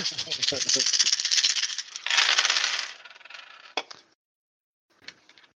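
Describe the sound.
A big handful of eighteen dice rattles and clatters in a tabletop game, a dense rolling rattle lasting several seconds before it settles, then a brief final clatter after a pause.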